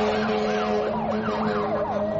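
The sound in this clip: Fire engine siren wailing in quick, repeated rising and falling sweeps over a steady low engine hum, loud and continuous throughout.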